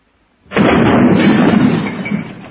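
A loud blast from an antique gun bursts in abruptly after a moment of silence, then rumbles heavily for about two seconds as it slowly fades.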